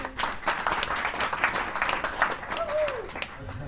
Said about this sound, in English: Can we have a little applause? How about a lot?